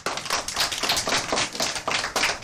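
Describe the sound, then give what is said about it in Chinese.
Hand claps from a class of students, a brisk, evenly spaced patter of sharp claps at moderate level that continues throughout with no talk. “就是这些，很好，掌声。”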